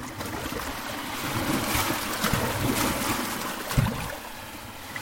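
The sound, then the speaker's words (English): Paddling a boat through water: a few soft, splashy strokes over a steady wash of moving water, with no voices. “Paddling.”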